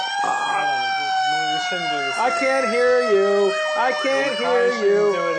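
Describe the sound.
A siren wails inside a fire hall, holding a steady, harmonically rich tone that wavers slightly while people talk over it.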